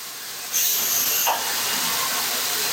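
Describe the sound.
A computer-controlled coffee roaster at Barnie's Coffee starts up with a sudden rush of loud, airy hiss that swells and then settles into a steady, broad roar.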